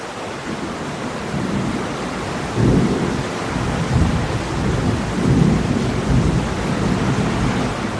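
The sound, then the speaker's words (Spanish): A heavy rain downpour hisses steadily while low thunder rumbles surge through it in several heavy bursts, loud and broad with no voices. “El chaparrón lo arruina todo.”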